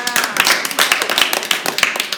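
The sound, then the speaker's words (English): Applause from an audience as a guest is called up at a live event: dense, rapid clapping that stays fairly even and loud throughout, with no voices over it. “Come on up, Jonathan. Give him a hand.”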